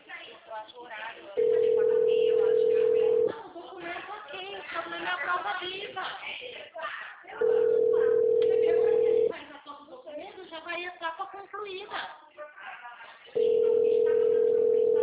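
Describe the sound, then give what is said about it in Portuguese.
A telephone ringback tone sounds while a call is being placed: three steady, mid-pitched tone bursts of about two seconds each, separated by longer gaps filled with muffled voices and background noise. “Sto ligando agora.”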